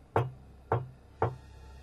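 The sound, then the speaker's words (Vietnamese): Three dry, sharp knocks used as a sound effect in a story, evenly spaced about half a second apart, each loud and brief and standing alone over a faint low hum. “3 tiếng gõ khô khốc đã chợt vang lên.”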